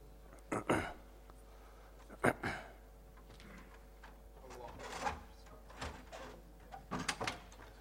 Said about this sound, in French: Si quelqu'un peut fermer la porte